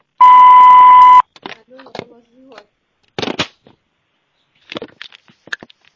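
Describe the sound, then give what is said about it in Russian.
An answering machine beep sounds as one loud, steady, high-pitched tone lasting about a second. Voices speak after it. “После звукового сигнала.”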